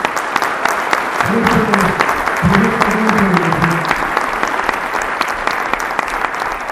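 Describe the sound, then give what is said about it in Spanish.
Steady audience applause at a democratic assembly's education congress, dense and continuous throughout, with a voice briefly rising above the clapping. “Va pues ese aplauso a todos ustedes, compañeros”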